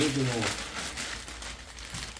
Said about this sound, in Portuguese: Então eu pego aqui, ó, esse saco aqui, essa bagzinha, tá?